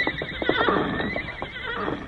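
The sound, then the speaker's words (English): A horse neighs in one long, loud whinny with a shaking, wavering pitch. It lasts about two seconds and eases off slightly toward the end. “That's Tonto's horse, Scout. Go, Silver, go.”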